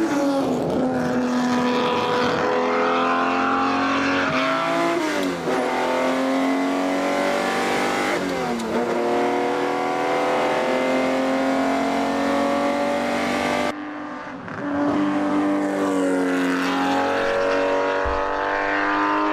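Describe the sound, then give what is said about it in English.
A 1964 250 GTO engine revs hard and loud, its tone climbing repeatedly and then dropping back through several gear changes, with a brief dip in sound near the end. “1964, the 250 GTO.”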